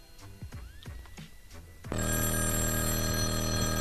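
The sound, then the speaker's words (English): A telephone bell breaks in abruptly partway through after some softer whistling sounds. It then rings loud and steady, unbroken to the end. “Oh, it stopped. That means I can quit. The phone stopped ringing.”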